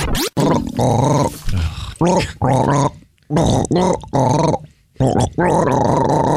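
A gargled, growling vocal rendition of the Beat the Brit radio segment theme jingle, delivered in loud rough bursts of several phrases separated by short gaps.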